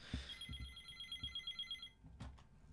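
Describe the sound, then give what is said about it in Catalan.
A telephone bell rings for an incoming call in one steady, bright, continuous trill that lasts almost two seconds and then stops. “Una altra trucada.”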